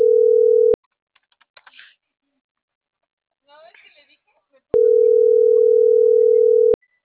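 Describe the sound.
A telephone ringback tone sounds while a call is being placed: two long, steady mid-pitched tones. Between them is a pause of near silence with a few faint, scattered clicks.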